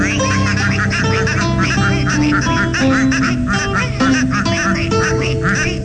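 Loud, repeated duck quacking, nasal honking calls following one another in quick succession over continuous musical backing throughout.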